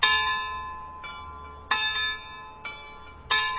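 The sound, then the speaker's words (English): Clock chimes from bells driven by clockwork: five ringing bell strikes at uneven intervals, one softer than the rest, each tone sustaining and slowly decaying into the next, with no voices. “She likes the clock chimes. Those bells are activated by clockwork.”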